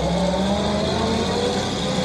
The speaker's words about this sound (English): They watch the truck drive away.